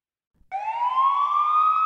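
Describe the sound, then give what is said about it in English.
A police siren starts abruptly after a moment of silence and wails loudly and alone, its pitch climbing steadily as it goes. “That's the siren. Police.”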